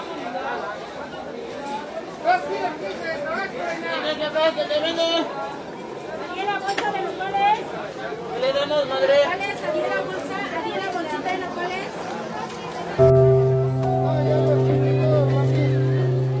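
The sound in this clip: A busy Mexican market fills with overlapping chatter and vendors calling out, many voices rising and falling, until a steady droning tone abruptly takes over near the end.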